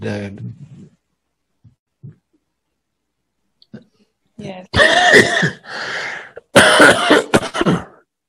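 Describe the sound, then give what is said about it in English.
Coughing and throat clearing from a person with something caught in the throat: a short rough burst at the start, a pause with a few faint clicks, then several loud, harsh bursts in close succession. “Excuse me, I have something caught in my throat.”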